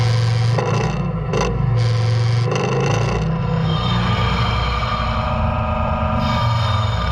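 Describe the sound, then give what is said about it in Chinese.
A forklift's engine drones low and steady as it raises an SUV off the ground, with metallic scraping and shifting mechanical tones over the hum. “叉车已经将我们的目标车辆缓缓地脱离地面。哦，它还要调整角度，它要把它抬高一点，”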